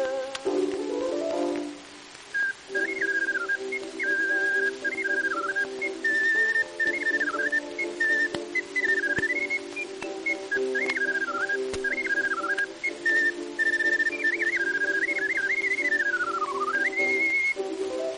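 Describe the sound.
A small pipe whistle, blown with its holes covered, plays a wavering, bending melody over sustained lower tones, loud and continuous throughout.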